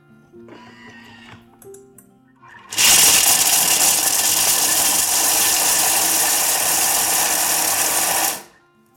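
An electric food chopper with the lid on chops nuts: a loud, steady, high whirring roar lasting several seconds, then cutting off. Quieter handling noises come before it.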